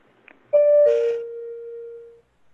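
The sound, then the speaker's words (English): Electronic two-note chime: a higher tone followed by a lower, sustained one that rings on clearly and then fades out. “And this is chime number one.”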